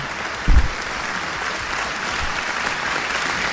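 Applause for a guest barrister: an even, sustained wash of many clapping hands that lasts over three seconds, with a brief low thump near the start.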